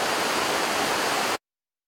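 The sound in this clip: Rushing water at Uludağ flows vigorously as a loud, steady, hissing roar. It cuts off abruptly into silence.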